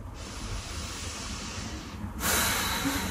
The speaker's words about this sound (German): Atme mal tief ein und aus und komm wirklich bei dir an.